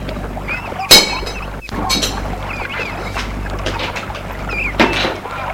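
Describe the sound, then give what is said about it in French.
A cupboard door is opened to take out a bucket, giving two short knocking clatters, one near the start and one near the end, over a steady low background hum. “Elle ouvre le placard pour prendre un seau.”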